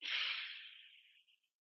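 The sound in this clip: A single deep breath in during a guided breathing exercise: a loud, airy rush of air that starts strong and fades steadily over about a second and a half, heard alone without talk.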